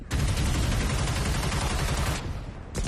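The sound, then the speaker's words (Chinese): Rapid machine gun fire in a wartime battle scene against Japanese troops: dense, loud, continuous rattling bursts for about two seconds, a brief lull, then the firing starts again at the end. “二连， 有， 用机枪，先给我收割一批小日本子。 是。 打。”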